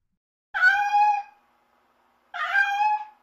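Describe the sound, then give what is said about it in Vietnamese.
Two drawn-out cat meows, separated by a pause of about a second, each a rising-and-falling wail of moderate loudness heard alone against silence. “Tiếng con mèo không biết ở đâu kêu lên khiến ông Thành tỉnh giấc.”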